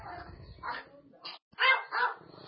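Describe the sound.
A dog barks a few sharp, clipped times in short separate bursts, with a person talking around them.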